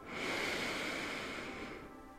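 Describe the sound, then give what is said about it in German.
A single slow inhalation through the nose during a guided breathing exercise, heard as a soft, steady, airy hiss that lasts nearly two seconds and then eases off. “Noch einmal durch die Nase einatmen.”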